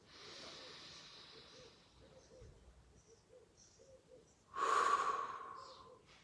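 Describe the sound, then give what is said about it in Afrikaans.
Deep breathing, drawn in through the nose and let out through the mouth: soft airy rushes, with one louder, stronger breath near the end. “En haal so 'n paar keer lekker diep saam met my asem in by jou neus en dan uit by jou mond.”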